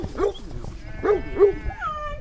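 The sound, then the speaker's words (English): Black Welsh Mountain sheep bleat on a 40-acre sheep farm outside Paonia, Colorado: a few short, wavering calls of moderate pitch over low background noise. “It's a sunny morning at Desert Weir, a 40-acre sheep farm outside of Paonia, Colorado. Uji McGuire and her husband own this farm. They raise black Welsh mountain sheep.”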